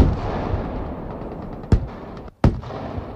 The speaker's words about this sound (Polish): Nad poligonem przeleciały F-16 i śmigłowce szturmowe. Do akcji wkroczyły też transportery opancerzone, wozy wsparcia i artyleria.